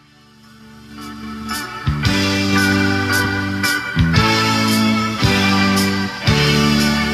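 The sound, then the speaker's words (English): Instrumental baseball stadium song played going into the seventh inning at a Blue Jays game: upbeat music with sustained tones and strong accented beats recurring every second or so, with no singing or talk. “you need to look up the song that the Blue Jays play going into the seventh inning”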